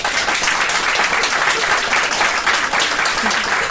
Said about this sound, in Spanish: Y te despedimos con este fuerte aplauso.